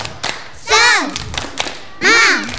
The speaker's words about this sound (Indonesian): Tepuk semangat.